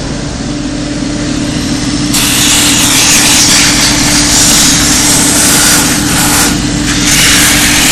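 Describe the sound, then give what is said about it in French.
Loud, continuous abrasive grinding as the detached sole of a shoe is sanded, with a steady machine hum beneath; the hissing scrape brightens and intensifies after the first two seconds, then holds steady. “Je carde aussi loin que je peux. Voilà. Carder qui veut dire donc poncer. Poncer, ouais. Je ponce aussi loin que je peux.”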